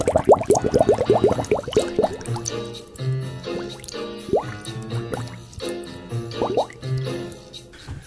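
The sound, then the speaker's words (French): Water rising quickly and flooding a cellar: dense bubbling, gurgling and dripping with quick upward-sweeping pitches, busiest at the start, then surging in irregular pulses. “Je crois qu'on cherche à nous noyer, inspecteur. L'eau monte très vite.”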